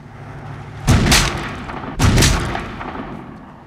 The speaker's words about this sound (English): shout out the bit where Benedict shot the guy, you know, just to see what would happen.